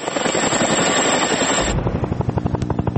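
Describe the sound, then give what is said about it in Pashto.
Helicopter noise from a NATO helicopter flying over Afghanistan: a loud rush that gives way to a steady, rapid, rhythmic chopping pulse from the rotor. “لا هم د افغانستان په فضا د ناټو هلیکوپټر ګرځي.”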